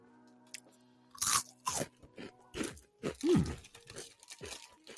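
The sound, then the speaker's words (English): Loud, crisp crunching on a spicy, puffed corn snack, a run of sharp bites and chews in quick succession with brief pauses between, no talking. “Okay, so it looks like a Cheeto, but it tastes like a hot fry.”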